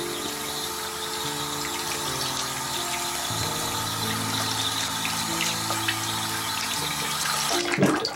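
Water runs steadily from a tap in a house, a continuous even rushing with a low humming tone underneath that shifts slightly in pitch, and a brief louder splash near the end.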